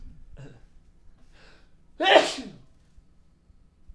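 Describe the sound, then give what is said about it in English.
A single loud sneeze bursts out and quickly fades, preceded by a couple of faint breathy intakes in an otherwise quiet stretch. “That's the first time I've sneezed on mic in a really long time because I was just too far away from the control here.”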